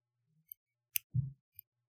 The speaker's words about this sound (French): Ou alors des petits trucs de ciseaux, genre comme ça.